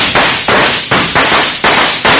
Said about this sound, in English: Shots ring out, shots from more than one gun.